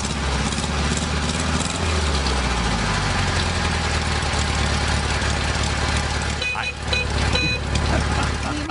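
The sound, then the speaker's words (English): A car engine idling with a steady low, rough rumble throughout, and people talking faintly over it. “It sits here and idles. I like it when they're shifting gears.”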